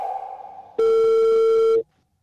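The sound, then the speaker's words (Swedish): Ringback tone on an outgoing telephone call: a fainter lower tone, then one loud, steady electronic tone lasting about a second before it cuts off to silence. “Så då testade vi ringa dit och kolla om de ville ta på sig ett uppdrag.”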